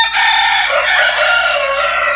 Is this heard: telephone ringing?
no